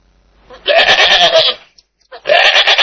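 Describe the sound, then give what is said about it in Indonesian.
A goat bleats twice, each call a loud, wavering, nasal cry; the first lasts almost a second and the second begins after a short silence and runs to the end. “Suara apakah itu? Ini kambing.”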